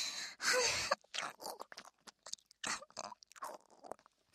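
Food is chewed in close-up with crunchy bites and quiet, moist mastication, many irregular crunches spaced unevenly, fairly faint and with no talk.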